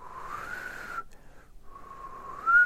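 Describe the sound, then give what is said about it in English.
A person whistling softly: two sustained mid-pitched notes separated by a short pause, with the second note rising in pitch and growing louder at the end. “Sometimes I might whistle.”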